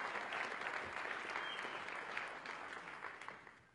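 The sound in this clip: Audience applause greets a speaker coming up to talk. Dense, even clapping continues throughout and eases slightly toward the end.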